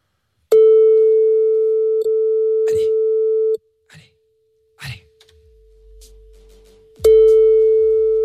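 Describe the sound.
A telephone line tone on an unanswered call: a steady, low electronic beep held for about three seconds, then a gap with faint clicks and rustles before the tone starts again.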